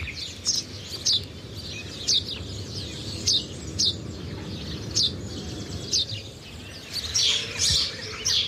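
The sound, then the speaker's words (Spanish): A house sparrow sings in a steady series of short, bright chirps repeated roughly once a second, faint over a constant low rumbling background. “Es un gorrión común.”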